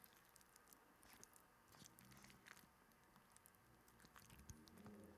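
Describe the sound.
Biting and chewing into food with tater tots, sausage and cheese: faint, wet, squishy crunches and small patters recur throughout, with no voices.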